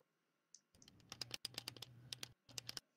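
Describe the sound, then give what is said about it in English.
Sharp clicking of a flashlight button cycling through stage, studio, flashlight and off modes. Many quick, crisp clicks come in dense bursts with short gaps between them. “like a stage light mode, studio light mode, flashlight mode, and then off. If you can hear me click it.”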